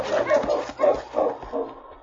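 Dogs barking and whimpering in snowy country near a burning cabin: a quick run of short, mid-pitched yelps in irregular bursts, loud and alone.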